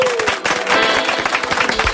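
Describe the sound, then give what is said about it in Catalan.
Audience applause for a guest author on a Catalan talk show: brisk, loud clapping with voices over it across the whole stretch. “Un aplaudiment per ella, home.”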